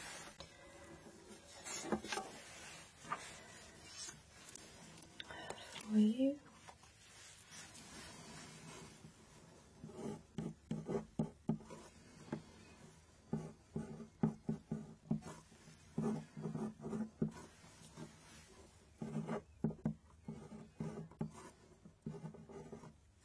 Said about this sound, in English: Okay, I'll just write this down.